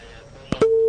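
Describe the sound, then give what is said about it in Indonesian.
Telephone line tone after a call is disconnected: two short low bursts, then a steady mid-pitched tone that holds unbroken to the end. “terputus sambungan teleponnya”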